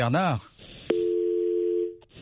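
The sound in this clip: A telephone dial tone sounds while someone is being called, after a brief voice at the start: a single steady, loud tone holds for about a second and then cuts off, followed by faint clicks.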